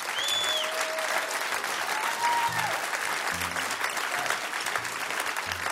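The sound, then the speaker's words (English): At a live stage show, the audience gives the performers a long, even round of applause. The clapping is dense and steady, with a few brief tonal sounds and low thumps mixed in. “To everyone that's on the stage tonight, I want to say a great thank you. Give yourself a great hand.”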